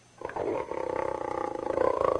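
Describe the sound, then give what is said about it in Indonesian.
A tiger in a forest roars, a rough, rumbling snarl with rapid pulsing that starts after a brief quiet moment and stays loud and continuous to the end. “lantas ketemu seekor harimau hendak menangkap kambingnya.”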